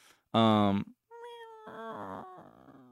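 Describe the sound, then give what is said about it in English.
A cat meows: one short, strong meow, then softer, drawn-out mewing cries. “it was a faint meow, but a meow nonetheless.”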